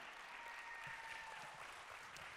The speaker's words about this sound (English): Give them a hand today.